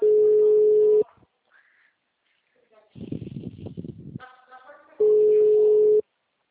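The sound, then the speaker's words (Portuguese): An unanswered phone call gives two steady, low ringback tones, each about a second long. A stretch of someone talking falls between them. “Tô ligando feito louca aqui, eu faço. Bora, vai. Não me atende, mas tô ligando.”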